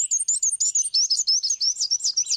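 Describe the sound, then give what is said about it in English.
Song of a black-and-white warbler: high, thin, squeaky notes repeated rapidly in an even series of about a dozen, heard alone without other sounds. “so for the black and white warbler.”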